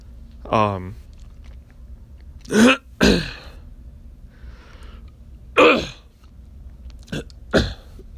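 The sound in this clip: Throat clearing from phlegm in the back of the throat while lying in bed: several short, harsh rasping bursts separated by quiet pauses, opening with a brief voiced grunt.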